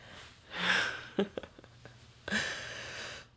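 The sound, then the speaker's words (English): Heavy breathing as someone catches their breath: two loud, drawn-out breaths separated by a few short sniffs and clicks, with quiet gaps between. “Still catching my breath.”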